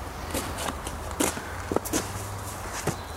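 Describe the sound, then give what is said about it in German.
Footsteps of someone running back and forth along a short course outdoors while carrying a sandbag to a pile of leaves: many irregular, fairly faint crunching steps and soft thuds. “Und ich werde jetzt diese Strecke mit dem Sandsack in der Hand laufen und den Sandsack auf den Damm legen, auf den Laubhaufen, wieder runternehmen, wieder rüber zum anderen Ende der Strecke, dort wieder hinlegen, wieder aufnehmen, wieder rüber.”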